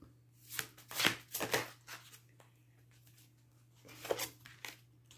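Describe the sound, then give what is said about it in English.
A deck of oracle cards being shuffled, with soft papery riffles and flutters in a cluster of quick bursts, then a pause and one more short shuffle. It is faint, over a steady low hum. “so the cards that we have, we're going to use again the Dark Goddess Oracle.”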